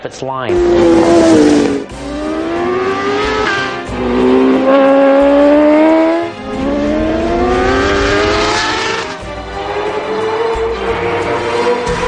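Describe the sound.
A Suzuki GSX-R 1000 sport motorcycle accelerates hard through the gears, its loud engine note climbing in pitch five times, with a quick drop at each shift.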